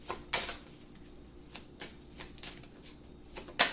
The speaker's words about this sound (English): May I have seven more cards, please? May I have seven more cards, please?